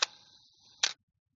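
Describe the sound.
A mechanical camera shutter timer gives a sharp click, then a thin buzzing whir, then a second clunk. The mechanism runs without battery power and goes quiet after the second click.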